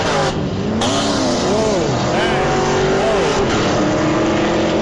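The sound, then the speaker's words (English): A Corvette race car's engine roars loudly while winning a race, revving continuously with the pitch swooping up and down through repeated accelerations. “Stephen Camp in the Corvette winning the race. Man. Loud. Very loud.”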